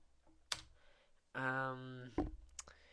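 A chat reply being typed on a computer keyboard: a few sparse, sharp key clicks, with a short voiced sound between them.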